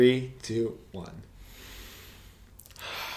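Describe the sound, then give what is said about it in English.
A deep breath follows brief talk: a long, airy inhale, a quiet pause, then a breathy exhale. “You gotta breathe and you gotta be relaxed. Exactly, yeah. Like that. Let's take a deep breath now.”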